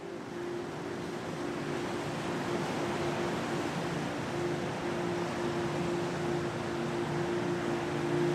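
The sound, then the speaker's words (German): Steady wash of wind and surf, with a low engine hum underneath, as an excursion ship approaches the coast of Easter Island in the South Pacific. The noise holds an even, unbroken level throughout. “Dein Ausflugsschiff nähert sich soeben der Küste.”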